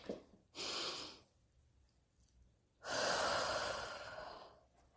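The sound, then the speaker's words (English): A deep cleansing breath: one slow inhale, a pause, then a longer, fuller exhale that trails away gradually. It is heard alone, with no talking. “let's take a nice deep cleansing breath”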